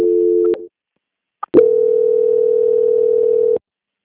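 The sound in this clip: A steady, low telephone line tone sounds during a call transfer. It holds briefly, cuts out, then returns after a short click for about two seconds before stopping abruptly.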